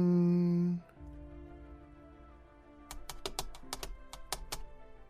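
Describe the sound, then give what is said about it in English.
Button clicks in the video game Moonbase Hope Alpha. A steady tonal hum cuts off, and after a quiet gap comes a quick, irregular series of many faint, sharp ticks. “Okay, how do I access this? There it is. Let me click on this button.”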